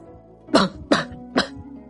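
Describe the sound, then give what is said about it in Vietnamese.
Three short, phlegmy coughs in quick succession, evenly spaced, loud and sharp over a soft, sustained background drone. “Có vài tiếng ho sổ sụn phát ra.”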